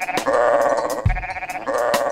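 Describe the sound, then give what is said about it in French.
Sheep bleating in a few loud, wavering, nasal calls with a trembling quality, each held for a moment, one after another with no talk. “Ce petit mouton fait.”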